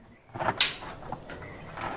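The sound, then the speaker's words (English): A door opens into a large ice-bound interior and a light is switched on: a short scraping rush of the door, then a couple of faint clicks. “A man opens a door and enters a large ice-bound interior, then switches a light on.”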